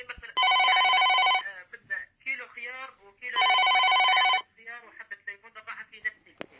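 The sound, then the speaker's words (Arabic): A telephone rings in two long electronic bursts with a bright, harmonic buzzing tone. A voice talks in the gap between the rings and again after the second ring. “انتظر شوية، انتظر بعض الوقت معي هاتف اخي.”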